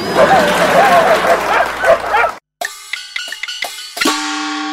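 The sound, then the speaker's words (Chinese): Five huskies yip, whine and howl together in wavering, pitch-bending cries over rough panting noise. The dogs cut off abruptly, followed by a short silence and then a few sharp, ringing tonal notes. “其实这只是五只外出结伴旅游的哈士奇。”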